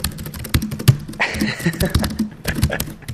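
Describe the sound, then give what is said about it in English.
Laptop keyboard keys are typed on in a steady run of many light, crisp clicks, some slightly louder, with a rapid uneven rhythm throughout. “for those of you who are curious about how the keys sound,”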